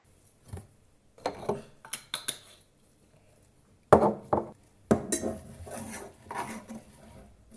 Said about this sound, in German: In die Butter schmeißen wir jetzt ein bisschen Zuckerzimt und unsere Äpfel.